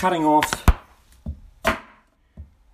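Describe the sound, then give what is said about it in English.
A knife cuts potatoes on a chopping board, trimming off the eyes: a few sharp, hollow knocks spaced irregularly with quiet gaps, one noticeably louder than the rest. “what I did was, I got a chopping board and a knife.”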